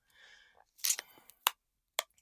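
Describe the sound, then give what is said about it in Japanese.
Adhesive tape is torn and pressed on, making three sharp crackling rips with softer rustles between them. A brief soft voice is heard first. “もうちょっとつけなきゃな、テープ。これ剥がすの痛いだろうな。”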